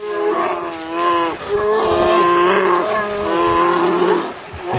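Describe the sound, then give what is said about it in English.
Long, harmonic moaning and bawling calls from a mother grizzly bear and her cubs as she catches silver salmon in Alaska's Lake Clark National Park. A few loud, drawn-out calls follow one another with little pause. “here's the sound of a mother grizzly bear catching silver salmon for her cubs in Lake Clark National Park in Alaska”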